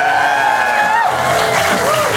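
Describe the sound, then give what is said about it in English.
Studio audience giving a round of applause for two guests, a continuous loud mix of clapping, cheering and whoops with raised voices rising above the crowd. “Big round of applause for them.”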